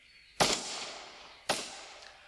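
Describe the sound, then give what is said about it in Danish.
Two sharp gunshot bangs from shooting a large bird of prey in a forest clearing, spaced about a second apart, each a loud crack with a short fading tail. “syntes, det var synd for kragen, så han skød den store fugl.”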